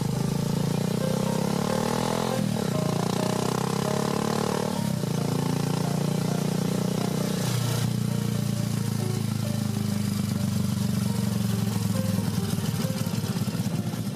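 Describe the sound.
Motorcycle carrying a rider and a passenger without a helmet on a short ride: a loud, steady engine drone that runs unbroken throughout.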